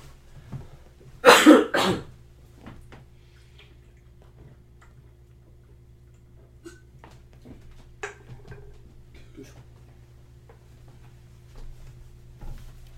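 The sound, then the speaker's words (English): A short, loud burst of coughing and throat clearing near the start, then near silence with faint scattered ticking for the rest. “I'm gonna treat my throat here for a second.”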